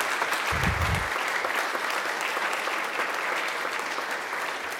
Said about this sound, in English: So if you're a teacher in the school, go ahead and just stand up, and it's okay to clap.